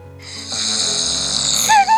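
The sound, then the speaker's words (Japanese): Snoring played back from a sleep-tracking app's overnight recording: a single drawn-out, rasping snore that swells and ends in a brief tonal whistle. “聞くっていうところで僕のいびき聞きますよ”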